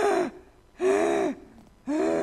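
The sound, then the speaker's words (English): A voice imitates gasping breaths: three loud, strained, raspy intakes with a tonal wheeze, each about half a second long and separated by short pauses. “And when it's open, she's gasping like this.”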